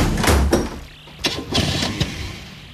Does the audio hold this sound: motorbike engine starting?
yes

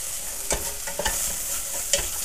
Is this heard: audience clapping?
no

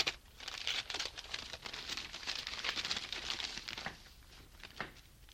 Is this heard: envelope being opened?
yes

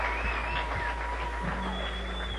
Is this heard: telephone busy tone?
no

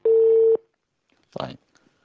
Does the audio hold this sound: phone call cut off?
yes

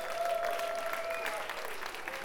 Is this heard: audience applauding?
yes

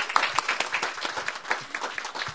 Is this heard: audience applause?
yes

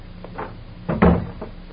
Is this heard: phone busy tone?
no

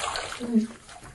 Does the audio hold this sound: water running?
yes

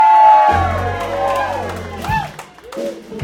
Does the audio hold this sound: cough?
no

